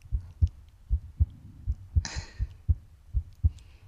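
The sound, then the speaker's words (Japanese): A heartbeat of soft, muffled low thumps in paired lub-dub beats repeating at a steady pace, with a brief burst of higher hiss partway through. “キドキ、ドクドクって音聞こえるね。”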